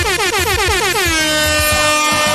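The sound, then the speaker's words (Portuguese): A truck's air horn blares loudly and continuously for about two seconds, a rich, brassy tone with strong harmonics and no pause. “Solta a buzina aí”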